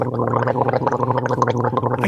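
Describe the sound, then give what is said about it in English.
Someone gargles: a continuous, throaty bubbling rattle, loud and steady for about two seconds, with no talk over it. “I can't talk when you're gargling.”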